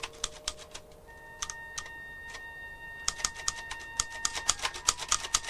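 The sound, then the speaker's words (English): Typewriter keys clatter in many quick, irregular, faint clicks that grow denser and louder toward the end, with no voices. “Across the landing, John looks up from his typewriter.”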